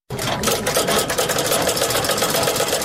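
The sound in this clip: A sewing machine stitches a sheepskin coat in a Ghazni workshop, running as a steady, loud mechanical whir with a rapid, even chatter of stitches throughout.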